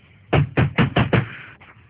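Knocking on a door: five sharp, loud knocks in a quick, fairly even rhythm, then a single fainter knock after a short pause.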